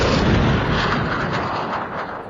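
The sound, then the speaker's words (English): A blast rocket attack explodes in the game Space Bones with a loud, sustained booming rumble that fills the moment and eases off only slightly toward the end. “We have 2 blast rockets remaining. The blast rocket severely damaged the main structure on Ingemar.”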